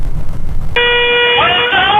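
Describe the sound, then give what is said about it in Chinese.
A bus horn sounds in a city centre as the driver urges a taxi out of the way: a single long, steady, bright blast that begins after a short stretch of low background noise and holds loudly to the end. “在黄石市中心城区，一辆公交车持续鸣笛，连闯2个红灯”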